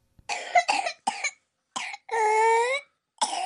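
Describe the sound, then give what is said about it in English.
Whooping cough from a 22-month-old baby: short bursts of harsh hacking coughs in quick runs, then a long, high, tonal whooping gasp for breath before the coughing resumes, with silent gaps between. “That's the sound of pertussis, or whooping cough, in a baby of 22 months. She's having trouble catching her breath between the hacking coughs that mark this disease.”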